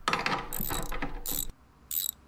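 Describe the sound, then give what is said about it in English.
Ratcheting clicks of a wrench being worked, in a few quick bursts with a sharp, bright metallic edge; a short pause comes before the last burst. “pass me the wrench”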